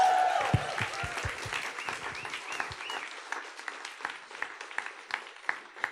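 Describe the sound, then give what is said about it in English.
Audience applause welcoming a guest pastor at a church service, a dense, steady wash of clapping that slowly thins, with a few distinct single claps standing out toward the end. “So would you please stand to your feet and give a warm Every Nation Brisbane welcome for Pastor Jim LaFoon as he comes.”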